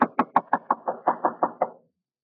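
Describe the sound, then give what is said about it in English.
Knocking on a door: ten sharp, evenly spaced raps in quick succession. The later ones are slightly softer, and silence follows. “Standing there knocking, I suddenly realized that the door was ajar.”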